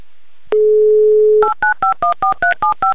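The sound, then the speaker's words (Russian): Telephone dialing: a steady dial tone sounds first, then a quick run of short touch-tone beeps as a phone number is keyed in, each beep a clean two-note electronic tone with no voices. “Набран номер телефона Ирины, дожидаемся гудков”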